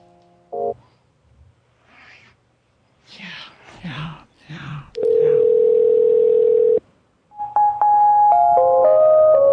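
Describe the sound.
While a number is called, a telephone ringing tone sounds as one long, steady electronic tone after brief low, whispery talk. A series of stepped electronic tones at shifting pitches follows.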